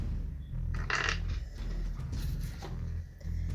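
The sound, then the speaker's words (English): A single die being rolled, with the phone shaken for each roll, gives a few brief rattling clicks over a steady low hum. “She's rolling a single dice each time she rolls.”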